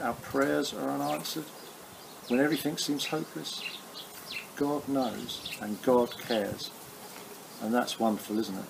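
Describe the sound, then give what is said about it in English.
Sparrows tweet and chatter in short, high chirps behind a man's steady talk, faint and mostly masked by the speech. “Still hear those sparrows tweeting behind me, chattering away, seems flying around.”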